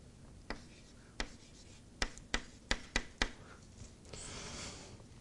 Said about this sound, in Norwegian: Vi tegner standard normalfordeling.